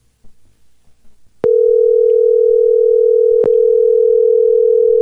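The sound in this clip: Steady telephone dial tone heard while placing a call, sounding as one loud, unbroken mid-pitched hum after a short stretch of faint noise, with a sharp click where it begins and another click partway through.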